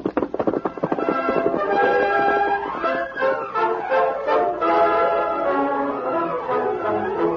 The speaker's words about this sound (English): A 3-4 hour ride. Get him up, Scout. Don't linger.